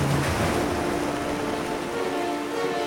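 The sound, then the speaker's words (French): Ocean waves roll against immense cliffs on an island shore, a steady, dense roar of surf and wash that holds at an even level throughout, with no voices. “Les vagues roulent contre les immenses falaises.”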